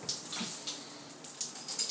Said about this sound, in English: Welcome to the most creative place in my home universe. My shower.